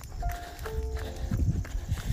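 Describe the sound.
Footsteps walking along a road, soft, steady treads that grow heavier and more distinct toward the end, with no talking.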